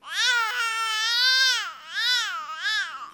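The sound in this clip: An infant's single vocalization shaped into four melodic arcs, each rising and falling in pitch, with a bright, harmonic, cry-like voice and brief dips between the arcs. No other sounds accompany it.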